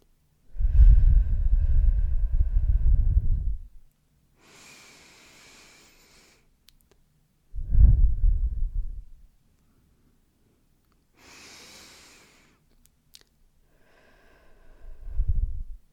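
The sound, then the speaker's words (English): Slow, deep breaths: three loud, low, blowing exhales, each lasting a couple of seconds, alternate with soft hissing inhales and silent pauses. “just take 3 deep breaths, okay? Close your eyes, open your eyes, whatever you want to do, but 3 deep breaths in, okay? 3 seconds in and 3 seconds out, okay?”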